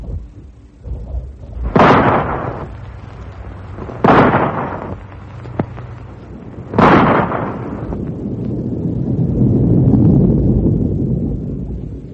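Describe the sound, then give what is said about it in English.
Three sharp rifle shots crack out at even intervals, each a loud burst with a short decaying tail, fired to knock something down; a low, swelling rumble builds after the last shot. “Rifle shot? Right. Now watch.”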